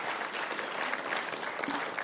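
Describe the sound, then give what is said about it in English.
Audience applause after a prayer at a pastor-led gathering: dense, steady clapping from many hands, even in loudness throughout. “Let's give Vicky a hand. Thanks, Vicky. Well done.”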